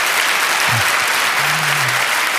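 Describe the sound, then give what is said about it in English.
Audience applause at a religious gathering: dense, continuous clapping that holds a steady, full level for the whole stretch without breaks. “Let's clap unto the King.”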